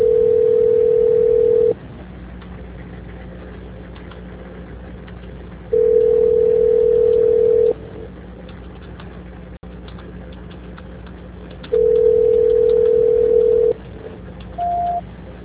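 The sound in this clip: A telephone line tone plays during a call transfer: three long, steady, mid-pitched tones separated by pauses, over a constant low hum, with a short, higher beep near the end.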